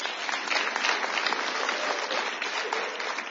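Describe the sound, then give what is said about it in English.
Audience applause on a call for the crowd to give themselves a hand: dense, even clapping from many hands, sustained at a steady level throughout. “Give yourselves a hand.”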